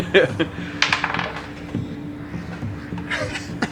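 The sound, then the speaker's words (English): Dice are thrown onto a table during a tabletop roleplaying game. A few hard, bright clattering clicks rattle out in quick bursts, then settle into quieter scattered taps. “Just throw that die Get away. Different dies. Melt that die in front of the other ones.”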